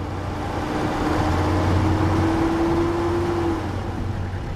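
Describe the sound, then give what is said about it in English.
Engine drone from U.S. military vehicles withdrawing at dawn from positions on the Syrian border. It is a steady low rumble with a sustained tone that rises slowly, continuous throughout and with no voices. “U.S. military vehicles withdrawing at dawn from positions on the Syrian border”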